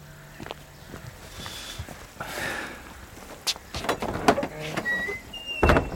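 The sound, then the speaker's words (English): A gate being opened: a drawn-out scraping creak, then a cluster of sharp knocks and clatters, with no talk heard. “Open the gate.”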